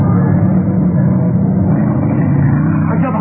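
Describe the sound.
A car engine speeds along in a chase, a loud, steady low roar and rumble that holds unbroken from start to finish.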